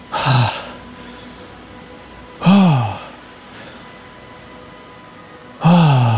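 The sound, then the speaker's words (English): A person imitates gasping for breath as if winded, with three sharp, loud breathy intakes spaced a couple of seconds apart, each falling in pitch, and faint breathing between them. “like when you get out of breath and you're kind of going,”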